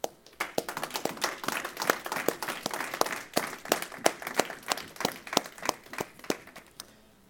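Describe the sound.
An audience claps during a morning church service: a run of sharp, fairly regular hand claps that stays moderately quiet and fades away at the end.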